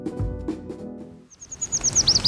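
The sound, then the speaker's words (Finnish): Bird chirps from flocks gathered for autumn migration: a quick run of high, bright tweets that grows louder through the second half, after a low, sustained tonal passage at the start. “Metsä ruskan väreissä. Syysmuuttoa varten kokoontuneet lintuparvet.”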